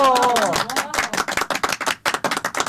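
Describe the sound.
Audience applause for a poet called up to the stage: brisk, dense clapping with uneven rhythm, preceded by a short tonal sound at the start.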